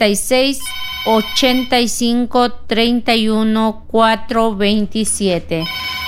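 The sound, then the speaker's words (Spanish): A telephone rings with a bright electronic ringtone: a loud run of short, clear tonal notes that step up and down in pitch, repeating in quick succession. “Nos vamos con una llamada telefónica.”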